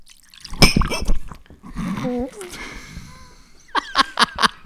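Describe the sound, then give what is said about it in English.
Liquid drains and drips from a microphone just dropped in a drink, a few sharp wet drips and splashes that bunch together near the end, with people talking between them. “It's still draining from the mic. So wait, you can hear it.”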